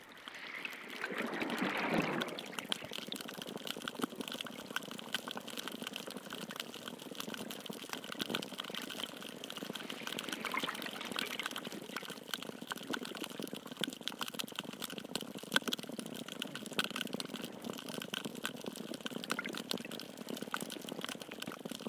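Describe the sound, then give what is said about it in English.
Underwater ambience recorded in the Penghu Archipelago between April and June 2017: a steady, dense wash of hiss and low rumble, with a louder, rougher burst near the start before the texture settles into an even, continuous bed. “This soundwork is based on underwater recordings realized between April and June 2017 in Penghu Archipelago”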